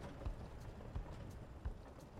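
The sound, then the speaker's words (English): Faint hoofbeats of a horse pulling a wagon in a video game, three soft, evenly spaced low thuds over a quiet, steady background. “You start to hear something rattling, and eventually, a wagon rolls up in front of you.”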